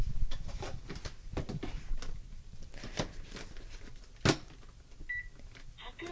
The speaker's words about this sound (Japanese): はい、普通炊きの炊飯ボタンを押しました。